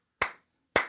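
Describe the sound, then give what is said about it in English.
Two sharp hand claps from a single person, evenly spaced about half a second apart, each a crisp isolated smack with a short decay into silence. “Sorry, that's the sound of one hand clapping, but very impressive, sir.”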